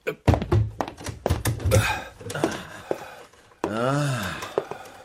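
Door being opened, heard as several dull thuds in quick succession followed by a long, wavering, creak-like tone that rises and falls before the sound fades.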